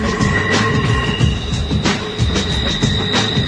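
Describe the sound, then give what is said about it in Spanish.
Passing train, a loud continuous rumble with thin, high wheel-squeal tones drawn out over it, steady through the whole stretch with no voices. “Ahí escucho el tren”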